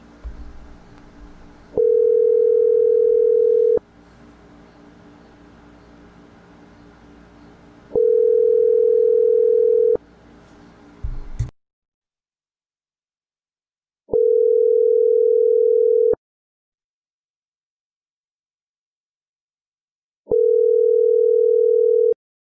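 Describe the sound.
A telephone line tone heard while calling someone back: a steady electronic tone in four bursts of about two seconds each, separated by longer silent gaps, with a faint background murmur during the first half.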